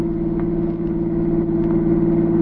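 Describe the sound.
A car engine drones steadily as the car drives across a border, a continuous low hum at even, fairly loud volume with no voices.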